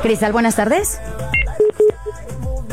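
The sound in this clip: Touch-tone telephone dialing beeps, a few short steady tones of a number being keyed, set between stretches of talk.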